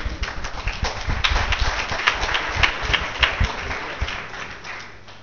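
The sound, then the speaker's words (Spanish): Applause from an audience at a hack lab talk: a dense, steady patter of many hands clapping that holds its level throughout. “Eso, aplausos para mí, aplausiómetro.”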